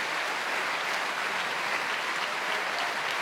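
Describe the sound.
Enthusiastic applause from a large Covent Garden opera audience at the end of Otello, as conductor Antonio Pappano brings the principals forward. The clapping is dense, steady and loud throughout, with no voices.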